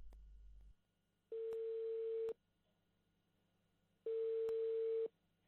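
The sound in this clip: The ringback tone of an outgoing telephone call sounds twice. Each faint, steady, buzzy tone lasts about a second and is followed by a longer silence.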